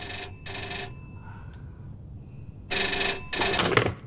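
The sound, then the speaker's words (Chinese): A telephone rings at a military command headquarters: two loud double bursts of harsh electric ringing, a pause between the pairs, with no one speaking over them. “电话。”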